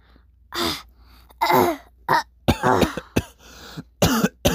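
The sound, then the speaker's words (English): Repeated coughing from a person: a string of harsh, irregular bursts separated by short pauses, fairly loud and with nothing else around it. “she hears coughing.”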